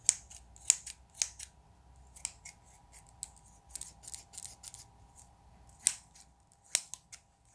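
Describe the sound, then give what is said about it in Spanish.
Large scissors with a sharp blade snip through the air in a run of many crisp, brief metallic cuts at irregular intervals, fairly faint against near silence. “Imaginando una tijera grande, con este filo. ¿Escuchó? No sé si escucha el filo,”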